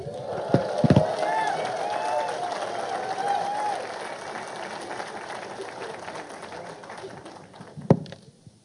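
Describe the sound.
An audience applauds to welcome a pastor, a moderate wash of clapping with some voices that fades down and ends with a few louder claps.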